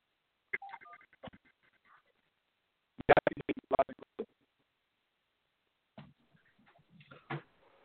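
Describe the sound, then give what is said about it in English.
Touch-tone dialing of a telephone number: short electronic beeps in a few quick groups separated by pauses, crisp and alone. “I'm going to dial in on another number.”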